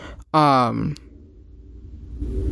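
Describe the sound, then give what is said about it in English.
A person yawns once: a loud, drawn-out voiced yawn with pitch sliding downward, followed by near quiet with a faint low rumble. “I'm yawning because I've been trying to rest this whole past couple of days”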